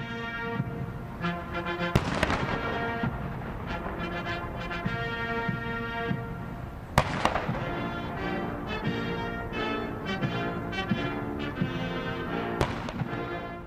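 Cannon shots of a gun salute at George H. W. Bush's state funeral, three sharp booms about five seconds apart, heard over continuous sustained band music.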